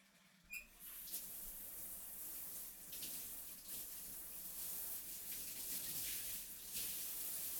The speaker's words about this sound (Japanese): お湯で流すよ。